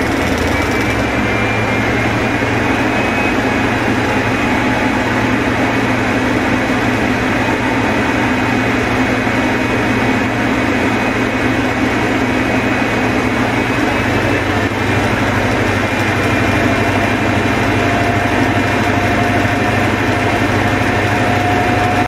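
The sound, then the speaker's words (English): Diesel engines of several HST high speed trains powering up to full power, a loud, unbroken roar with a steady throb and faint whining tones held throughout. “That is the sound of an HST going to absolutely full tilt, maximum, you know, maximum notch, making all the magic happen.”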